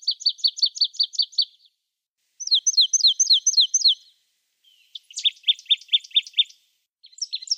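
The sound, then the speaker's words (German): Marsh tit song: three quick phrases of rapidly repeated high, sharp notes, each phrase separated by a short pause, followed by the start of a fourth, heard alone without other sounds. “Es handelt sich um eine Meise, so viel haben wir schon gesagt. Und zwar um die Sumpfmeise. Und damit hören wir uns nochmal den Gesang an.”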